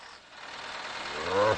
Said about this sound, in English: The big truck is coming, humming all the way.